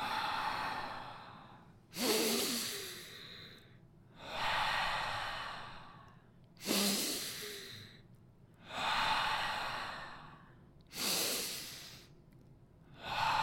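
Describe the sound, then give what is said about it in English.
Slow, deep breathing in and out during a guided breathing exercise: several long, airy inhales and exhales rise and fade in a steady rhythm, soft and breathy, with no talk. “Let's take a big breath in through the mouth or the nose. And breathe out.”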